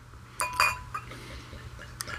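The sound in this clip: Dark wheat beer bottle being opened, with a few sharp glassy clinks and a small pop-like click that stand out faintly against a low, steady background hum.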